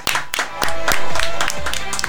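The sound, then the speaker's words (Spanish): Applause for a show's producer, with a handful of sharp hand claps at a loose beat mixed with voices and tonal sound that partly cover them. “El conductor, y le vamos a dar un fuerte aplauso porque seguramente se va a estar enterando a través de este medio. Tristán B, nuestro productor, le damos un aplauso.”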